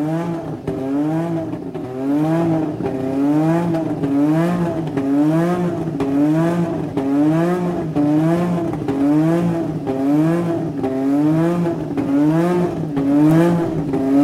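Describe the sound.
A racing car engine held high in its rev range, around 9000 to 10000 rpm with oil at 110 degrees: a loud, steady, buzzing drone whose pitch wavers up and down in a regular rhythm about once a second, with no talk.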